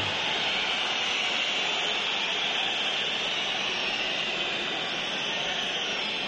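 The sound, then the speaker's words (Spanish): At half time, a home football crowd in Elche's stadium whistles at the break after a poor first half, producing a continuous, dense, shrill wash of noise that never pauses. “Escuchamos al público local.”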